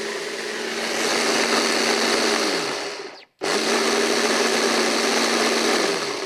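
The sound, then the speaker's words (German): A blender purées strawberries for a salad dressing, running as a loud, steady whirring drone in two long stretches split by a brief stop near the middle. “Also wir nehmen einmal die Erdbeeren und wir pürieren mal wieder.”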